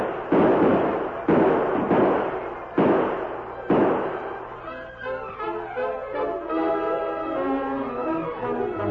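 Four loud, sharp gunshots ring out with short decays during a western drama skirmish as the order to open fire is given; music follows the last shot.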